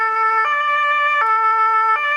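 A two-tone ambulance siren sounds during a children's first-aid course around an ambulance. It is loud and steady, switching between two pitches three times, with no talk over it.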